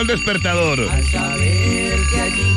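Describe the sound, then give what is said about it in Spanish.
An alarm clock rings in a steady run of about five short, low buzzing pulses, repeating at an even pace beneath loud, lively talk from a person speaking over it. “Ya sonó el despertador”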